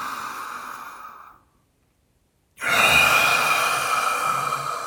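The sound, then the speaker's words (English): A deep breath taken during a guided meditation: a soft, breathy rush fades to silence, then after about a second of quiet a second, louder breath rushes in and holds steady. “And with our third breath,”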